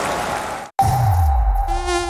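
Mosquito buzzing: a thin, steady, high whine that holds an even pitch, loud and alone, broken by one brief silence near the start.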